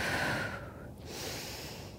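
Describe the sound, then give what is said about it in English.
Breathing in and exhaling during a hatha yoga slow flow session: a long, airy breath eases off briefly near the middle, then a second steady breath follows at a similar moderate level. “Exhale, rotate. Inhale. And breathe in.”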